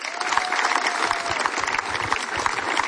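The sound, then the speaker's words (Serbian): Audience applause welcoming a performer onto the stage: dense, continuous clapping that holds steady and full throughout, with no pauses or voices standing out. “pa ćemo ga teplin aplauzom i pozdraviti”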